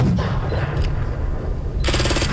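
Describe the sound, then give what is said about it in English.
Simulated explosions at a military battle reenactment of a 2008 ambush, staged on flat, dusty ground at a Canadian military base: loud, dense rumbling blasts throughout, with a rapid burst of sharp pops near the end. “Flat dusty terrain, a lone brick building, and simulated explosions can be seen at CFB Wainwright”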